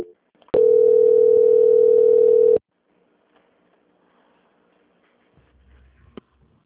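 A telephone line tone plays during a call transfer as one loud, steady, mid-pitched tone lasting about two seconds. It then stops abruptly into near silence broken by a few faint clicks.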